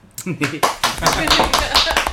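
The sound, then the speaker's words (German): People clap for themselves: a few scattered, sharp claps mixed in with talking voices. “Schon mal für euch selber geklatscht?”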